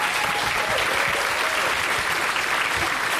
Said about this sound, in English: Let's give yourselves a round of applause